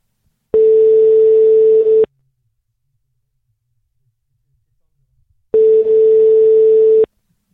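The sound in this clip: Telephone ringback tone heard while placing a call: two long, steady, loud mid-pitched tones, each about a second and a half, separated by a long silence.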